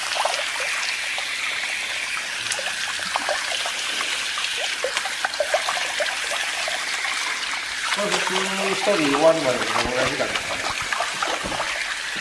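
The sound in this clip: Water is poured over a person's back to rinse it during a bath washing, a steady trickling splash that runs throughout, with voices talking briefly near the end.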